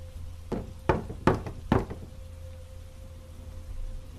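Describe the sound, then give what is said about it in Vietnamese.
Four sharp knocks in an even rhythm, each a distinct thud with a short ring, above a faint steady tone; the knocking sounds loud and clear. “Lại thêm một lần nữa, nhịp gõ vang lên, nhưng lần này to và rõ.”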